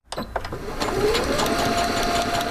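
A sewing machine runs in a home sewing workspace set up in a Virginia Beach bedroom, starting up quickly into a steady, even whirring hum that carries on without a break.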